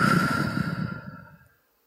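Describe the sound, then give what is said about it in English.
A person breathes out in one long, sighing exhale that softens and fades into silence, with no speech. “breathe in, breathe out”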